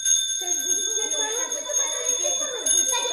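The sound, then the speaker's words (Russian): A theatre's last bell rings before the curtain rises on the second act of a children's play, a steady, high, continuous ringing that lasts throughout while a voice talks over it. “Вот звенит последний звонок”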